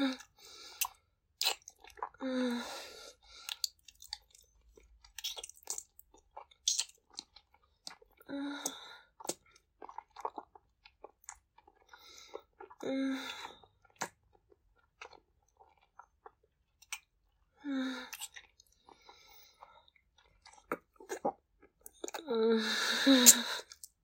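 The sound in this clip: Someone chews while tasting food, making soft wet smacks and mouth clicks scattered sparsely between quiet pauses, with occasional breathy exhalations.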